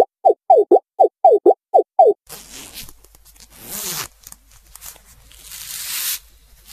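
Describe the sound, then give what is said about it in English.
A jacket is opened with a rapid series of about eight sharp zipper rasps in a steady rhythm. Softer rustling and rubbing of fabric follows, swelling and fading irregularly, with no voices. “What you are hearing is the waiter opening his jacket and showing his fur to his clients.”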